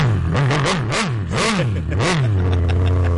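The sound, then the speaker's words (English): Harley-Davidson motorcycle engine revving in several loud swells, its deep, rough rumble rising and falling in pitch before settling into a steady idle. “I mean, turn up the mic a little bit, because the distortion actually helps. That's a Harley. That's awesome.”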